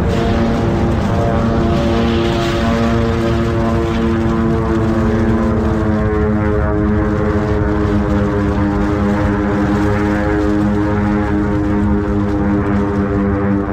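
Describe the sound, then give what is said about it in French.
A propeller airplane in flight gives a loud, continuous engine drone with strong, even harmonic tones. The sound holds steady throughout with no voices. “L'avion fait un écart.”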